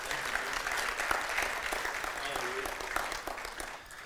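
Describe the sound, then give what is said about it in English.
A church audience applauds in a steady, fairly soft wash of many hands clapping, with scattered voices calling out over it. “If you believe that, come on, put your hands together this morning. Make some noise for the Lord.”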